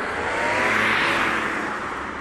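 Car traffic on a Paris street rushes past alongside the roadway as a steady, broad roar of engines and tyres, fairly loud and even throughout, without voices.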